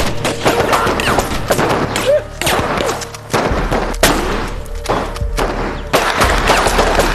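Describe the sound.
A loud volley of gunfire: many sharp shots overlap in rapid, irregular bursts, with heavy thuds mixed in. The shooting continues with no real pause from start to finish.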